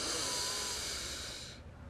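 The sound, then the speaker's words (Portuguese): A deep breath is drawn in through the nose and let out through the mouth during an eyes-closed breathing exercise: a single long, breathy hiss that holds steady, then fades away near the end. “Inspira longo por ambas as narinas e solta o ar pela boca. Faz isso mais uma vez sem abrir os olhos. Inspira.”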